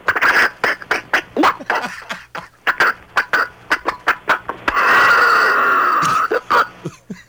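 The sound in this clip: A human voice imitates the sputtering engine of an old Maxwell car with loud, rapid, rhythmic puffs and coughing chugs, breaks into a sustained rasping whine, then returns to the chugging.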